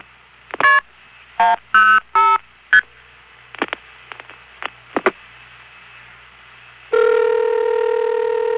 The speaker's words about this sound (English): What did I dial? 105. That's what I thought I dialed.